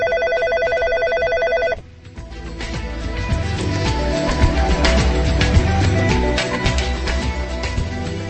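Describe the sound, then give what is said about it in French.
A telephone rings on an outgoing call from a radio station in Prague to a cultural centre in Paris: a steady, tonal ring lasting under two seconds, then a dense, busy wash of line noise and clatter until the end. “Allô Paris, ici Prague. Radio Prague appelle le centre tchèque de Paris.”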